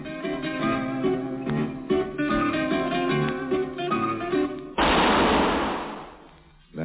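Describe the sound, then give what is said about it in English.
A single loud gunshot in a sewer bursts over zither music, its harsh noisy blast decaying slowly over about two seconds before fading out. “Shot that killed Harry Lyme.”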